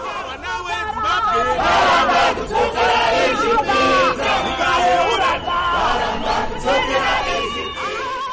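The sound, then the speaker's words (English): Demonstrators in a protest march in Zimbabwe sing loudly together, a dense chorus of many voices with rising and falling melodic lines and scattered shouts woven through the mass of sound. “The situation was saved by some leaders of the protest group, who showed the police a clearance letter that was issued by some top officers, resulting in the demonstrators singing even louder.”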